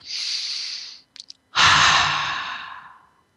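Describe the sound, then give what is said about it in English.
People take a deep breath together during a breathing exercise: a long, airy inhale, a short pause with a couple of faint clicks, then a louder, longer exhale that slowly fades out. “So I want you to take a few deep breaths.”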